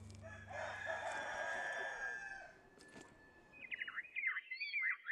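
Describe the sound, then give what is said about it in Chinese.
Rooster crowing among free-roaming chickens beneath walnut trees in a village: one long, loud, harmonic crow for the first half, then a few quick, high bird chirps alone at the end. “周区县曲瓦乡城马村的打嘎坪，茂密的核桃树下，不仅有随地走动的鸡群”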